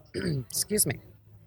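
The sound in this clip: Throat clearing by a person in conversation, two rough, voiced bursts in quick succession, fairly loud and heard alone.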